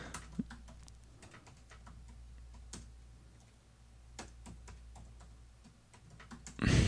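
Typing on a computer keyboard, many faint, irregular key clicks over low background noise, ending in a louder burst of noise.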